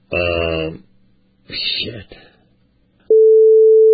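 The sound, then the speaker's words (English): A telephone call to a cell phone: two short bursts of talk come first, then a loud, steady electronic line tone starts and holds at one pitch to the end. “So I just called his cell phone”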